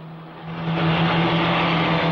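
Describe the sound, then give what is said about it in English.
A jeep's engine drones as it is driven down a track towards the hills, a steady low hum that swells in loudness partway through and then holds. “Coogan drives further down the track towards the hills.”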